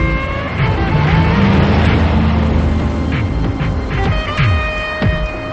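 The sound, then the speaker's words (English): A car passes along a street with a loud, sustained rush of engine and tyre noise. The sound eases slightly toward the end. “He watches a car pass him on the street.”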